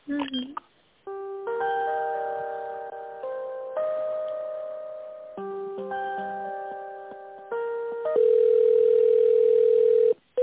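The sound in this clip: Telephone tones play while a call is transferred: a sequence of sustained, synthetic electronic notes that step between pitches. The sound is thin and phone-filtered and cuts off abruptly near the end.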